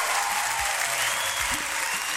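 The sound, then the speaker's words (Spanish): Applause at the close of a live Spanish-language show: a thick, even wash of many hands clapping, sustained without a break at steady loudness, with a few soft low thumps underneath. “Un aplauso para ustedes”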